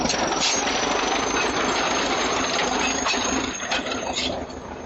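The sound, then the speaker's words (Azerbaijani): A tractor clears a mountain road at the entrance to a village. Its loud, continuous engine drone is thick with rattling and knocking, holds steady throughout and eases off slightly near the end. “Elə girəcəkdə cəmaat yığışıb yolu təmizləyən traktor tamaşa edirdi.”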